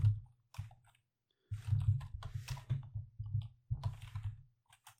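Typing on a computer keyboard: a few short bursts of clicking keystrokes separated by brief pauses, fairly loud and without talk.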